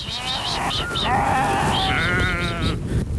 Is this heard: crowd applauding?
no